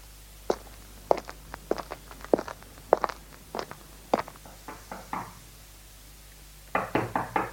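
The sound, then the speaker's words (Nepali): Knocking on a room door: many sharp raps in irregular groups, fairly quiet, ending in a quicker cluster of knocks. “एकाएक शोभाको कोठाको ढोका खचखच्याउन पुग्छ।”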